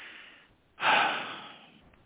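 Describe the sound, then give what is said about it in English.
One sharp, audible breath drawn in by a speaker: a sudden loud intake that swells quickly and then fades over about a second, with no words. “I had to breathe on that word”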